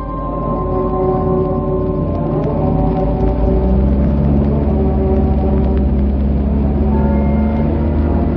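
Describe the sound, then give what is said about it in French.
Steady, loud engine drone of a car driving slowly through fog, a deep continuous rumble with sustained tonal hum layered above it, unbroken throughout with no talk. “La voiture fraye lentement son passage à travers le brouillard”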